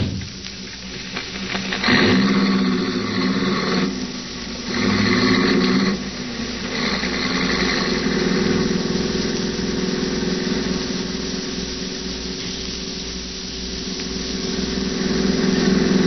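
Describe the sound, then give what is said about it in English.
Car engine running while being driven fast, a continuous low droning hum with a couple of louder surges early on and steady volume otherwise. “I hope you don't mind me driving so fast. I'm in a terrible hurry.”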